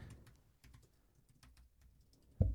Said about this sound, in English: Now people are just hearing us type furiously.